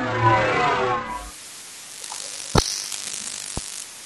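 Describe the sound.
Time machine sound effect: a dense mechanical whirring and ratcheting burst for about a second, then quiet with two sharp, isolated clanks.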